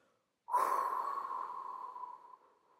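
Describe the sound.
A deep breath during a guided breathing exercise: one long, steady, breathy rush of air lasting about two seconds, starting abruptly and tapering off at the end.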